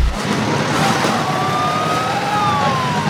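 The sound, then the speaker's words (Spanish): Ambulance siren wailing as the vehicle drives away from a tent, a loud continuous sweeping tone over engine and road noise, with no talk. “La ambulancia se aleja de la carpa.”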